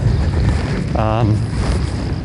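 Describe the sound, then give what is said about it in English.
Wind blows across an outdoor disc golf park in a steady, low buffeting rumble against the microphone, with a brief voiced sound rising over it midway. “The wind is pushing on a little bit”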